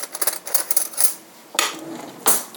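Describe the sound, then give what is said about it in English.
Spoon stirring a thick, nutmeg-topped mixture in a pot, with a run of quick clinks and scrapes first, then a quieter stretch and two louder scraping strokes near the end. “Stir it just a little. Oh yeah, it's definitely thick. You can hear that.”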